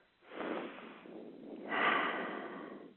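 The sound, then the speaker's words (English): A big, deep breath taken slowly, heard alone as two long, airy, breathy phases of steady loudness, each lasting over a second with a brief pause between them. “And so let's all take a big, deep breath.”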